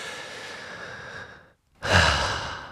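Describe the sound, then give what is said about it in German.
Heavy breathing: one long, steady, airy breath fades out, and after a short silence a second breath comes in louder and rougher, with no speech. “Atemgott, ich atme einfach nur stark.”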